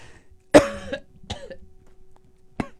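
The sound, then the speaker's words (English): Harsh coughing from someone choking on their own spit: three coughs, the first loudest and longest with a rasping tail, then a weaker cough and a final sharp one after a pause. “as I choke on my own spit”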